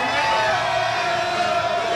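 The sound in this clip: Crowd cheering and shouting at a rap group's nightclub show, a dense, steady roar of many voices that holds at an even level throughout.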